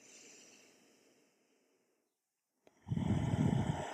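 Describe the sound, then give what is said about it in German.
A deep inhalation during a guided breathing meditation, heard as a loud, rushing breath that follows a soft breath fading out, a short silence and a small click. “Deine eigene Farbe jetzt einatmen, ganzer Körper.”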